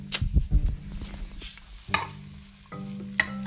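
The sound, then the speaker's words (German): Diced bacon stirred in a frying pan: several scraping strokes in the first second over a steady hiss of sizzling fat, followed by continuous frying with a couple of sharper scrapes later on. “Speckwürfel rein. So, alle drin. Muss ich ein bisschen rumrühren.”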